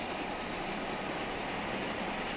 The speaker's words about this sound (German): Die Jubiläumsveranstaltung Zug 150 der schwedischen Eisenbahn war ein voller Erfolg. 4 Tage unter Volldampf.